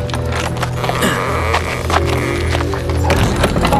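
Hooves clip-clop as a horse-drawn carriage arrives, with many steady hoof beats over a rolling, rattling rumble of wheels.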